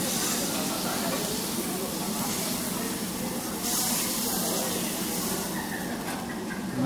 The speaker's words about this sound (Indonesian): Nah, ini baru masak. Bunyinya, ini tuh loh. Kayak bunyi laut, ombak nembrala.